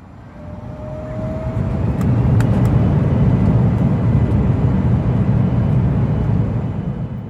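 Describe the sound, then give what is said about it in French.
An airplane taking off, a broad, heavy engine roar that swells over the first couple of seconds and then holds loud and steady, with no voices. “Préparez-vous au décollage.”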